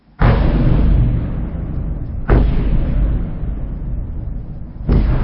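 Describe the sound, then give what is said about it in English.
Three heavy explosions from an overnight Russian bombardment of Kyiv. Each starts as a sudden loud boom and rolls into a long rumble that slowly decays before the next blast. “We start in Ukraine and the all-too-familiar sound Russian bombardment in the capital Kyiv overnight.”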